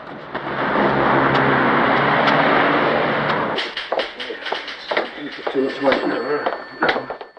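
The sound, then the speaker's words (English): A car pulls up outside New Scotland Yard, its steady engine and road noise filling the first half before cutting away, after which people talk. “Carter pulls up outside New Scotland Yard and gets out of the car.”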